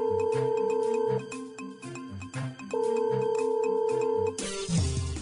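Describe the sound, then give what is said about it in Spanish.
A telephone ringing tone on an outgoing call placed to the White House after dialling: two long, steady electronic ring bursts separated by a pause, loud and with no voices, then a brief burst of different noise at the end. “Déjeme marcar a la White House.”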